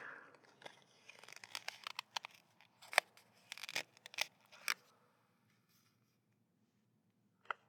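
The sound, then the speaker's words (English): Crunching, tearing bites into a playing card from a deck: a dense run of dry, crackly bursts of varying loudness, followed by a stretch of near silence and then a single sharp final crunch. “wow, it's harder to bite into a card than I thought. Yeah. I'm not actually going to eat this card”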